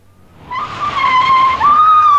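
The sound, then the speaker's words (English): Tire screech from a car driving very fast and skidding: a loud, sustained high squeal that swells in over the first half second, dips briefly, then holds steady to the end, heard alone. “He ran over the old lady. I saw him. Yes, he was driving very fast.”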